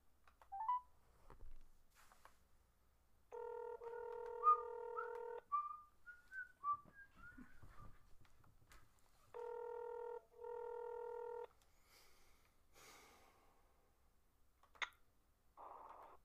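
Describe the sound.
An outgoing call on speakerphone, placed to call a woman back, gives two long electronic ringback tones, each split by a brief gap, with quiet between them and faint scattered blips and chirps around them.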